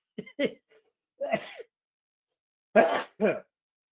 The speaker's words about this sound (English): sorry about that. Same thing happened last week, you know? Right when I get started, I have this sneeze.